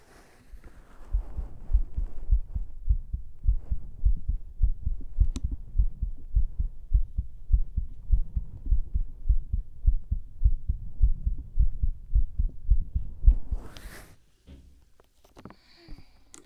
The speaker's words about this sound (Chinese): 感觉哥哥的心跳也没有很快嘛。